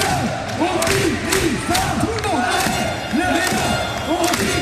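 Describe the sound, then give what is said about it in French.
Fans roar and cheer in the packed Coubertin volleyball hall during a match against Tours. Loud, continuous shouting is mixed with rising and falling chanted voices, and the noise swells in waves. “Un deuxième set perdu, mais de peu, 21-25, ce sera le seul. La salle explose.”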